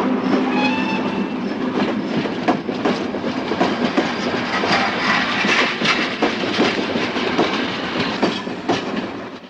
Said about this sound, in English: The Atlantic Express departs.